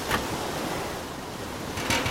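Gusty wind roars around a truck that has just pulled up at a house. It is a dense, steady rushing hiss that swells slightly near the start and again at the end. No voices are heard.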